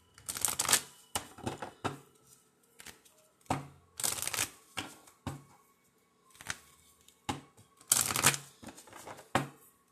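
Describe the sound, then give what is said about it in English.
A deck of angel oracle cards is shuffled in many quick, crisp riffling bursts with brief pauses between them, soft and papery throughout. “I'm pulling out my angel cards.”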